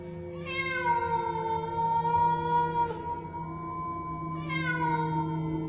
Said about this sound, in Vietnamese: Con mèo cứ thế ngửa cổ nhìn lên trăng, sau đó nó cất tiếng kêu ai oán.